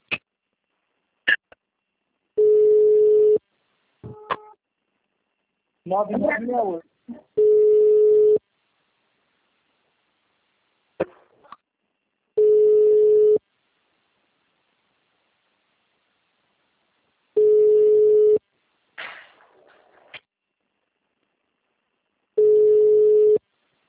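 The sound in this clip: Telephone line tones while a call is placed: five steady tones of about one second each, repeating at even intervals with silence between, plus a few clicks and brief faint voice sounds in the gaps.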